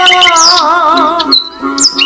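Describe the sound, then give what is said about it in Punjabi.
Birds chirp and squawk in short, high, sweeping calls over a sustained, tonal lower sound, loud and close-sounding with brief gaps between phrases. “ਪੰਛੀ ਚਹਿਕਦੇ ਸੁੱਖ ਦਾ ਸਾਇਆ”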